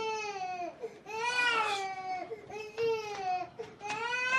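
An infant crying after waking up, with several high-pitched, drawn-out wails broken by short breaths, each wail strong and tonal and tailing off at its end.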